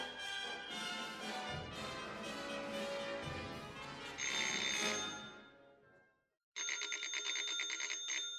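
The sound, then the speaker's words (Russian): A rattling telephone bell rings in two loud, buzzing bursts: a long one that fades out, then after a brief silence a second ring that is just as bright and harsh. “Дребезжащий звонок телефона заставил Николя подняться.”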